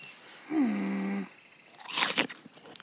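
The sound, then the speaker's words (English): A crisp, crunchy bite into the forbidden fruit in a cartoon, with a short burst of crunching and a few smaller crunches after it. A sustained, steady tone sounds just before the bite. “Eve, did you taste of the forbidden fruit? Yes, God.”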